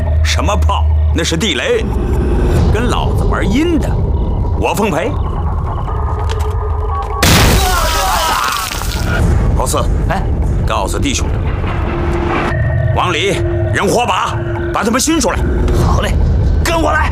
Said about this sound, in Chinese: 什么炮？那是地雷，跟老子玩阴的，我奉陪。